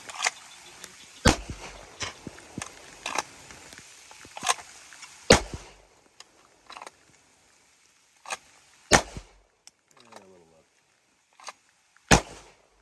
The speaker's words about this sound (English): We're just shooting and warming up. To get used, you can shoot from the holster.